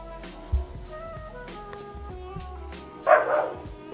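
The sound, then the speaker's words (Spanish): A dog barks in two short bursts, the first brief and low, the second louder and longer, over a faint steady tonal hum. “Sonó el perro primero.”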